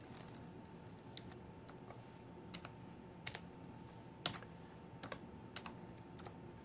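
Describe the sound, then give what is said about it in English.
Quiet, irregular typing on a computer keyboard: many soft key clicks with a few sharper taps, some landing in quick pairs, over a faint steady background hum. “Oh my gosh, what am I going to type? Because I can't type today, so it could be anything.”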